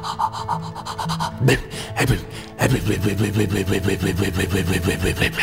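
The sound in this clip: A boat engine is started with a hand crank: a few heavy cranking strokes, then the motor catches and runs with a fast, steady chugging pulse.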